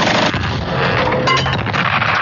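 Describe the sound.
A machine gun fires in a loud, dense stretch of booming shots that runs without a break from start to finish, with no voices heard.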